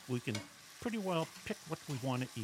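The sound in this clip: Faint kitchen background of food cooking, with a frying sizzle and stirring, sits beneath a person talking throughout.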